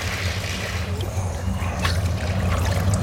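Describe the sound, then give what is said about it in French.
Water sloshing and gurgling as a plastic bottle with its bottom cut off is plunged under water: steady, fairly loud watery churning over a low rumble, with a brief splashy burst midway. “Et là, vous êtes en train de les enfermer, de plonger la bouteille sous l'eau.”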